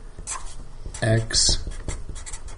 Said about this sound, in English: Okay, let me write that on there.